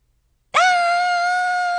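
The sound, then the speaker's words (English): A person screaming: a single loud, sustained, high-pitched scream that starts abruptly and holds a steady pitch for over a second, alone after silence. “That was me screaming a second time.”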